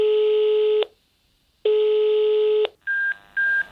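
Ringback tone of a telephone call that goes unanswered: two long, steady low tones separated by a pause, then two short higher-pitched beeps.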